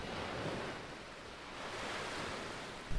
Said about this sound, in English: Can you hear the seashore? Can you hear the wind? Yes.